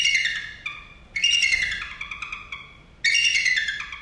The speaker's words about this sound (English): if you are surprised that that was the sound of a bald eagle, you're not alone.